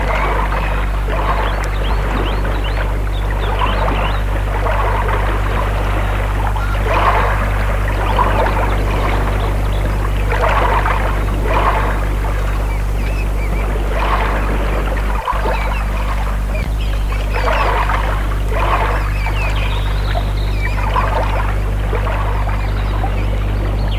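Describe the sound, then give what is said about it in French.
Water splashing from people swimming breaststroke, soft swishing surges repeating every second or two over a steady low hum, with no voices. “Après quelques brassées, ils vont s'allonger au bord de l'eau.”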